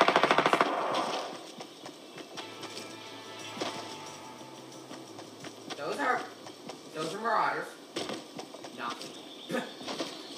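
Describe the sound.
Gunfire from guns in the video game Fortnite, opening with a rapid, loud automatic burst, followed by quieter scattered game sounds and a voice.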